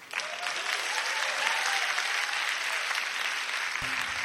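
An audience welcomes a band with a wash of bright, continuous clapping at an even level, and a low sustained note enters just before the end.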